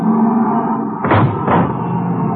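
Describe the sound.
A car bursts through a hole in a fence during a chase. Two heavy thuds land in quick succession over a steady engine rumble.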